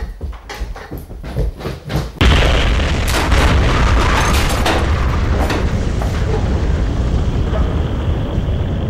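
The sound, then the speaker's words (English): A bomb hidden in a man's toolkit explodes. A few short, sharp knocks come first, then a sudden loud blast opens into a heavy, sustained roaring rumble that lasts to the end. “That man's toolkit. There's a bomb in it!”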